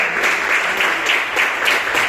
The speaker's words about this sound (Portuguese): Eu agradeço a oportunidade e as palmas para o louvor do Senhor.